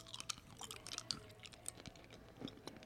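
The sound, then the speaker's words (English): Faint, crunchy chewing of cinnamon candy, with many small irregular clicks and moist crackles that run continuously, with no speech. “That's why I get paid to sit on Twinkies and eat hot tamales on camera. Now, this is a fun ASMR.”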